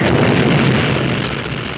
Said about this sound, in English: Huge explosion.